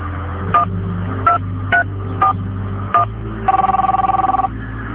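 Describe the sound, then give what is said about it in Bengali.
A telephone being dialed: five short two-tone keypad beeps at uneven spacing, then a fast trilling ring tone, all over a steady low hum. “ঠিক আছে, আমি phone দিচ্ছি।”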